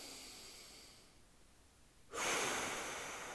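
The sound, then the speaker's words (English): A deep inhale through the nostrils during guided breathing meditation: soft airy noise, then an abrupt, louder rushing breath that stays strong and tapers slightly toward the end. “And now let's all take a breath together, taking a deep inhale in through the nostrils.”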